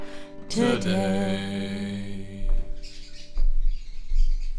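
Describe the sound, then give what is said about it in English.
A bird calls outdoors near Noosa in Queensland, Australia, with one sustained, tonal call held for about two seconds, followed by a few low, rumbling bursts. “Now, those are the birds. Yes. They are welcome.”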